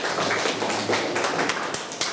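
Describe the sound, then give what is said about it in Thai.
Applause from a class of schoolchildren welcoming a classmate to present, a dense, steady patter of many hands clapping at even loudness for the whole stretch, with no voices standing out. “เชิญปรบมือให้มะลิด้วย”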